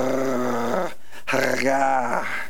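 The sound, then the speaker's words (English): A lion growls over its prey, giving deep, rough, sustained rumbling growls. Two long growls are split by a short pause. “It's the sound that a lion makes,”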